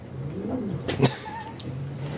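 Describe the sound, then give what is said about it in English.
A hostile house cat, hissing at people, gives low, wavering growl-like cries with a brief sharp burst near the middle, fairly faint and continuous throughout. “I'm hoping you can pick up on the microphone that my cat is hissing. At all of us.”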